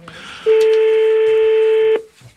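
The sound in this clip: A telephone tone sounds during dialing: a single steady, mid-pitched electronic beep held for about a second and a half, then cut off cleanly.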